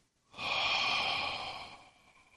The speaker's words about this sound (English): With me, take a full deep breath. Inhale. Exhale.